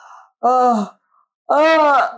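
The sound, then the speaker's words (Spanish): A person yawning aloud as a physical exercise: two long, voiced yawns separated by a short pause, the second louder and fuller. “¿cómo podemos bostezar ahorita desde la parte física? Aquí va.”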